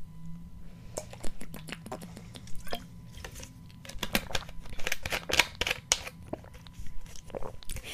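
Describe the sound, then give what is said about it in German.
Someone drinking a beverage, heard as many short wet gulps and mouth clicks in an irregular run, fairly faint and with no talk over them. “ich muss was trinken”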